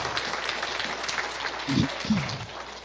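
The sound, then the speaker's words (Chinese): Warm applause from a church audience: steady, dense clapping at moderate level, with a couple of brief low thumps near the end. “感谢主我们给他们一个热烈掌声来谢谢他们 Let us give them a hand”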